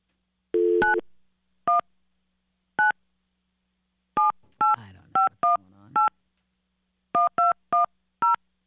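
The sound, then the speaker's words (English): A telephone number is dialed on a touch-tone keypad, giving a string of short, clean beeps of varying pitch in irregular clusters with brief pauses between them. “So if you're ready for me to call him, I'm going to call him.”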